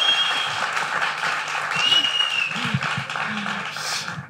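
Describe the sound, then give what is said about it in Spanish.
Applause from an audience welcoming a guest on a radio program: continuous clapping that rises and holds, with a voice speaking over it partway through. “que recibimos con este aplauso a la maravillosa Nieves”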